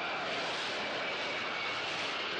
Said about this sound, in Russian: Самолет пролетает над фонарями на краю аэропорта.